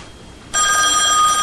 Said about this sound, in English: He crosses the room and answers the desk phone.